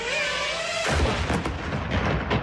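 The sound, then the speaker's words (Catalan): A Russian drone hunting a defenseless market vendor in Kherson gives off a buzzing, whining tone for under a second, then a loud, rough burst of blast-like noise takes over and churns on. “Aquest és el so del dron rus que s'ha dedicat a perseguir un venedor indefens del mercat de Kherson.”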